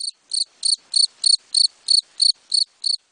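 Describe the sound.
A grasshopper chirps alone, giving ten evenly spaced, high-pitched buzzing chirps in a steady rhythm with near silence between them.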